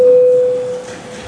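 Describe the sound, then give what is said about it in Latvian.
A parliament voting bell signal sounds as one steady, loud, mid-pitched tone held for most of a second before cutting off, with no voices. “Lūdzu zvanu, balsosim par likumprojektu grozījums meliorācijas likumā otrajā lasījumā.”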